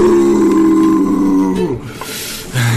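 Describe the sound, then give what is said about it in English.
An injured animal close to death gives a piercing, sustained howl that bends downward in pitch and fades, then a further low rumbling sound follows. “It's weak, vulnerable, injured, generally close to death. Get it! It's at this point it lets out a piercing howl, different to before.”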